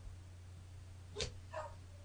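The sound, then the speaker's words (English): Two faint, brief dog barks in the background, a short sharp one followed by a softer one, over a steady low hum. “I got a dog barking in the background too”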